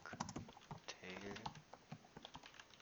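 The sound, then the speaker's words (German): Fingers typing a Google search on a computer keyboard, a fast, irregular patter of faint clicky keystrokes with a brief bit of speech partway through. “Da muss ich mal eben Dr. Google, Onkel Google fragen. Mal gucken, wenn man jetzt längliche Cocktailtomaten eingibt, was da kommt.”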